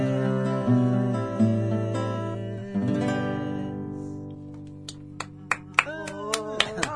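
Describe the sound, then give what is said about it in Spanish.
Clapping from an audience after a song with guitar: sustained singing and strumming fade out, then a few sharp, separate claps sound on their own. “aplaudiendo del otro lado ahí”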